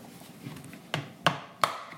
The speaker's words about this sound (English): You know what? Yeah, you want another egg? I'm going to do another egg.